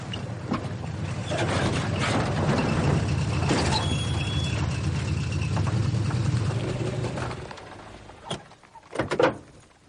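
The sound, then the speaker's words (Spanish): An old car driving, a steady low engine rumble that holds for several seconds and then fades away, followed by a few short thumps. “Tim y el niño están montados en el coche hasta que llegan a una cabaña”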